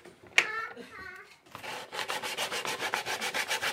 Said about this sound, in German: So, jetzt wird auch noch die Holzplatte geschliffen. Das ist eine Multiplexplatte aus Skandinavien, 15 mm dick, in weiß, Melaminharz beschichtet.